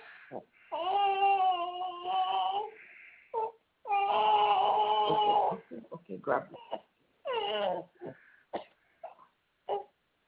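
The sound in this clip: Fussy teething baby girl whimpering and crying: several drawn-out, wavering wails interrupted by short, broken sobs and whimpers. The cries stop and start unevenly throughout.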